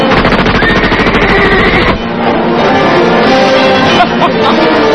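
A rapid machine-gun fire sound effect: a fast, steady rattle of loud shots for about two seconds, followed by a rougher, denser barrage that runs to the end.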